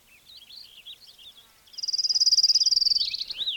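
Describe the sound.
Fox sparrow song mixed with another bird: high warbling notes give way to a loud, fast buzzy trill of many rapid pulses, followed by a few more warbled notes.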